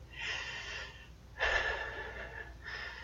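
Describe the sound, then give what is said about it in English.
A person breathes softly in three slow, airy breaths. The middle breath is the strongest, with a slight gasping catch. “Hearing me breathe makes you sink even more.”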